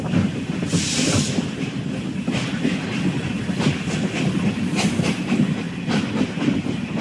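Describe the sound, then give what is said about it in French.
A Trans-Siberian train departs Yaroslavsky station in Moscow, with steady rolling rumble, rhythmic clickety-clack of wheels on rails and a hiss that is strongest near the start. “Ça y est, c'est parti, départ de la gare de Yaroslav à Moscou. Des sons qui doivent vous rappeler quelque chose”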